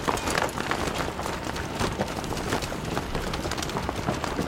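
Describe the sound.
People running to board a vehicle: a dense, fast patter of footsteps at a steady level, with no clear pauses.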